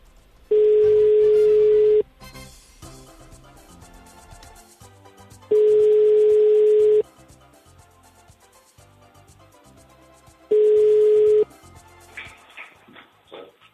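An outgoing telephone call rings out with three steady ringback tones separated by pauses. The first two last about one and a half seconds and the last is shorter, with faint background sound between them.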